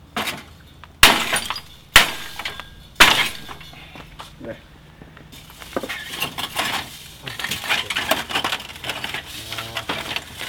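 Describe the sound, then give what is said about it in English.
Glass shattering as a television set is smashed: three sharp, loud crashes about a second apart, followed by scattered clinks, scraping and rattling of broken debris. “Oh, smash.”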